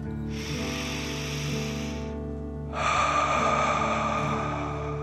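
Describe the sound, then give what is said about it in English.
A deep breath drawn in and then slowly let out, two long airy rushes separated by a short pause, the exhale a bit louder, over a soft steady tonal background. “Take another deep dragon breath in and out.”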